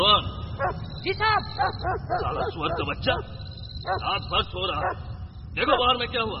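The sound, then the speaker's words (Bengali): A dog barks loudly and repeatedly in short, high, yelping bursts. The barks come in uneven clusters, with brief gaps between them, and then return strongly near the end. “কুকুরটা তখন প্রবল শব্দে ডেকে যাচ্ছে।”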